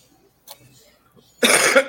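A single harsh cough bursts out loud and breathy for about half a second after a brief faint sound and near silence, as if the person were choking.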